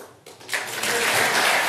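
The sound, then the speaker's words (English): Slow applause for Boris Johnson begins hesitantly and quietly, then swells after about half a second into a steady, fuller wash of clapping that holds to the end. “Applause for Johnson came, but slowly.”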